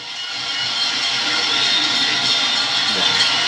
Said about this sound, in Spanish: Mayagüez aumenta ventaja, gana 5 a 2 y escuchen al público.